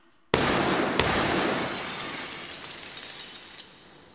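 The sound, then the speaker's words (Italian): Breaking glass crashes as gunshots hit a chandelier and a window: a sudden loud burst, a second sharp impact a moment later, then a long hissing shower of glass that slowly fades out. “Ma che avete sparato per davvero? Oh, meno male che siete due pippe a sparare. Come dovete spiegare come avete fatto a pigliare il lampadario e la finestra”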